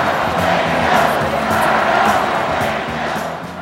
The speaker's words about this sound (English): That final chant was one that would end up at almost all rallies till the end of the campaign. So one half of the audience said fired up and held up red signs. And then the other half of the audience said ready to go and they held up blue signs.